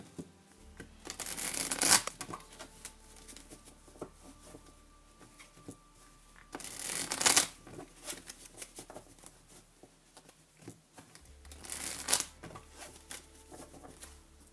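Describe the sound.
Tarot cards are shuffled and cut in three separate quiet bursts of crisp riffling and pattering, with near silence in between.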